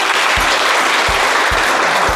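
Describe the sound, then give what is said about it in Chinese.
An audience applauds to welcome a legal expert at a Civil Code legal-education event held with factory workers. The clapping is dense, steady and loud throughout, with a few low thumps underneath. “大家掌声欢迎。”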